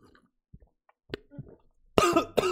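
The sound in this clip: Coughing from someone who has just inhaled coffee: a few faint throat and breath noises, then two loud, harsh, rasping coughs close together at the end.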